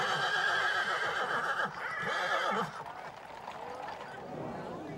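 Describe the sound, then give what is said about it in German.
Horses neighing after a Pentecost horseback procession in Kötzting, Bavaria: loud, bright whinnies fill the first half, then a second shorter call fades into softer background sound. “Die Rösser haben jetzt Feierabend. Sie freuen sich auf Stall und Hafersack.”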